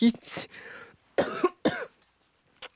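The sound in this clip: A person coughs in a few short, rough bursts, some of them voiced and throaty, fairly loud and separated by brief pauses.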